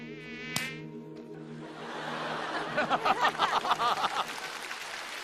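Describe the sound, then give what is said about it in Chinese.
Mosquito buzzing: a thin, steady whining drone with a sharp click early on, followed by a run of rapid, uneven pulsing bursts. “蚊子！ 出去打蚊子去！”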